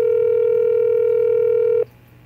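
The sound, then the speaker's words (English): A telephone tone from a phone call sounds as a steady, unbroken electronic tone for nearly two seconds, then cuts off abruptly into quiet line hiss. “what if I called up uh, Joey Muscles? Call him up right now, dude.”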